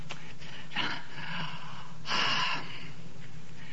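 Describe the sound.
A storyteller imitates a yawn with the voice: two soft, breathy exhalations, the second longer and a little stronger, heard faintly alone with no words spoken.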